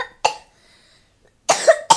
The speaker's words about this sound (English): My goodness, you got a cough. The bad cough.